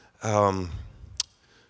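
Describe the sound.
A single crisp click sounds while a computer is being woken up, coming shortly after a brief voiced, sigh-like sound; otherwise the moment is quiet.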